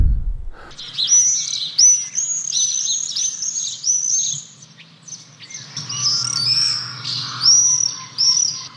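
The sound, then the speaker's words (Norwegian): Common swifts, all-black birds with long wings, give shrill, high-pitched screaming calls. Many rapid trilling screams come in two long bursts separated by a short lull. “Og når du da liksom har lært deg til dette, ja, da har du skjønt at det en tårnseiler”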